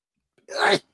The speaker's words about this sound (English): Oh, whoa, that was a sneeze. My allergies are acting up today, boy.